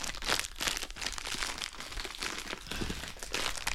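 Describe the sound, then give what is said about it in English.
Crinkling of a Sour Patch Kids candy package: continuous crackling and rustling of the wrapper being handled, fairly loud and steady throughout, with no talking. “Here's our ASMR moment for the day. This is a package of Sour Patch Kids.”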